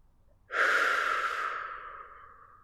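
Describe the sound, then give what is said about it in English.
A single long, airy breath taken during a guided muscle-relaxation exercise, beginning abruptly and fading gradually over about two seconds, soft and breathy with no voice. “Deep breath in. Let your muscles go slack when you exhale.”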